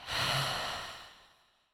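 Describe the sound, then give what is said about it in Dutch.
A forceful breath from a breathing exercise, drawn in through the nose and let out through an open mouth: one loud rush of air that swells quickly and then slowly fades to nothing. “Adem nu krachtig in door je neus. Open je mond en laat het los.”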